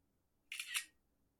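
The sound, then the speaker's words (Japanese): A camera shutter fires once as a photo is taken, giving a crisp, quick two-part click followed by silence. “カメラ、いきます。ねえ、こういうボケいらない？ねえ。 ちゃんと撮るね。”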